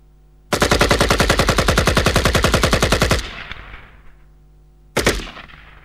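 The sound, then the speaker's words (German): Automatic gunfire as a magazine is emptied: a loud, rapid, evenly spaced burst of many shots lasting about three seconds, trailing off into a fading rumble, then a brief second burst near the end. “Ich schieße das Magazin in diesen Verblendeten hinein. Feuer.”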